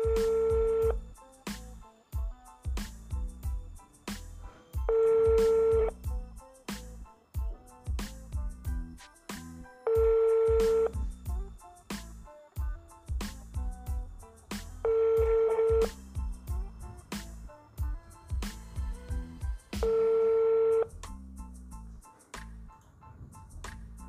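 An unanswered phone call rings out: five steady ringback tone bursts, each about a second long, come at even intervals of roughly five seconds, with fainter clicking sounds in the gaps between them.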